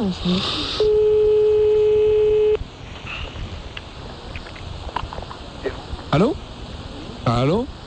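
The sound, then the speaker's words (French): Ringback tone of a telephone call: one long, steady, mid-pitched ring sounds alone, then the line goes quiet and voices start talking. “On appelle donc Monsieur Simbo pour les marabouts.”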